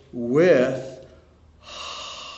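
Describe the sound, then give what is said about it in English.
A breathy exhaled 'h' sound demonstrating how a letter is pronounced: a short voiced syllable comes first, then a pause, then a soft, steady, airy breath. “letter He, for one thing, is just like a letter H, just breathe out.”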